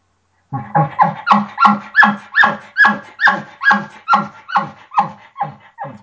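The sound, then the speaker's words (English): An imitated bull elk chuckle: a quick, rhythmic run of many short, nasal, barking pulses, evenly spaced and fairly loud, tapering off slightly toward the end. “chuckling hits a higher note and it's faster and they do it more times. So this to me is what a chuckle sounds like.”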